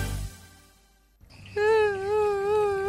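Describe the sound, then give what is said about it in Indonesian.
A young child cries in a loud, sustained wail with a wavering pitch, starting after a brief quiet gap and carrying on to the end. “Loh, adik, kenapa kok nangis?”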